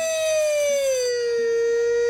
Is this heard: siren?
yes